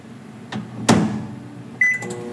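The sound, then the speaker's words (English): A microwave oven heats cream. A couple of dull clunks sound, then a short run of high electronic beeps near the end, with no voices. “I'm gonna microwave the cream for a minute, so at minute intervals until it starts to boil.”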